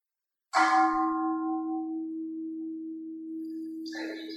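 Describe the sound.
A temple bell struck once: a bright metallic attack opens into a long, steady, low humming ring that fades only slightly as it sustains alone.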